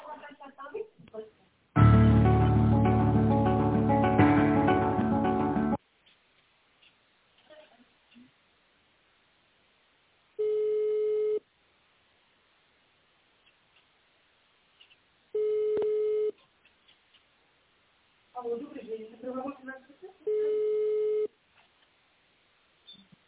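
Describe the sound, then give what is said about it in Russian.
Ringback tone on a telephone line while a call to a company waits to be answered: three long, steady beeps spaced several seconds apart, with other brief sounds in between. “Мы позвонили в компанию Химпэк. Ждите ответа.”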